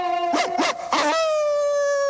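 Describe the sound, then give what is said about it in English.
A red-haired Afghan hound howls in a sustained tonal wail, broken by a few short yelping bursts near the start before settling onto a steady, slightly lower note that holds to the end. “The artist yanks Prissy inside by the collar, stopping her in mid-howl”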